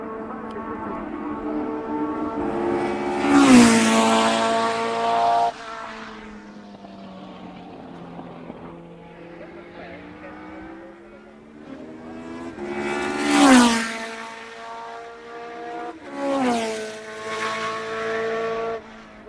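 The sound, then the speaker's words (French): A Formula 1 race car downshifts hard at the end of a straight, right at the limit. The loud, high harmonic engine note surges a few times, and its pitch sweeps sharply between the bursts. “Fin de ligne droite, rétrogradage à la limite.”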